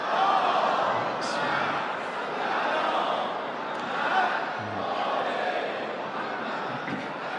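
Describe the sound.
An audience reciting salawat together, a dense, steady chorus of many voices in unison sustained throughout with little change in loudness.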